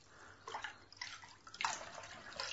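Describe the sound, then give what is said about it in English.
Water poured over someone's hair to soak it: faint splashing and trickling that comes in a few uneven surges. “let me just soak your hair.”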